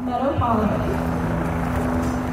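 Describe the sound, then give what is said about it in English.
Helicopters hover overhead during a gathering to mourn the dead, their steady low droning hum continuous throughout, with faint murmuring voices beneath. “As people wept and as helicopters hovered overhead, Cordova said change has to come.”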